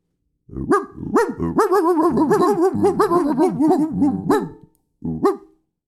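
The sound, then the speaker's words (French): A person imitates a dog barking, giving a long run of gruff barks, yaps and growly howls, then a short pause and one final bark. “Voilà, on termine sur quelques aboiements.”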